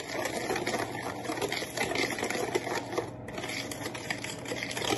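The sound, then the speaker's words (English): A whisk beats a mixture together in a bowl, making a rapid, steady clatter and scrape that continues without a break and with no talking. “we're gonna mix this in really well. Whisk it all together.”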